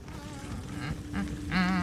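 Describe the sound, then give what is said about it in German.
A person imitates buzzing and humming coming from another room in a fantasy role-play scene. The voice makes a few faint, nasal, buzzy hums that grow slightly louder toward the end. “Ich find's geil, dass du das durchgezogen hast mit dem Gesumme, wirklich.”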